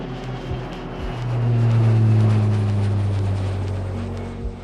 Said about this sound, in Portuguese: Retorne a cadeira para a posição inicial, verifique se a mesinha à sua frente está devidamente presa e aperte os cintos, pois esse jatinho vai decolar.